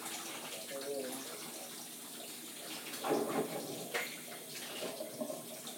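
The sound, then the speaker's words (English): Hot water runs from a tap in a steady, full gush that swells partway through. A voice is briefly heard under the flow. “Just getting this water hot, a little bit hot.”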